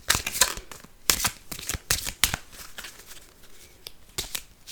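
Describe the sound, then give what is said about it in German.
Tarot cards being shuffled in crisp, papery riffling bursts. Several quick clusters of flicks are separated by short pauses, with no talk. “So, dann mische ich mal die Karten.”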